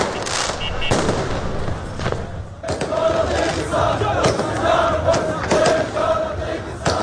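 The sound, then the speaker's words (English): A crowd celebrates at night in the city of Baghdad, with dense cheering and shouting that runs throughout, pierced by repeated sharp cracks and bangs. “here are the sounds of celebrations in the capital, Baghdad, on Wednesday night.”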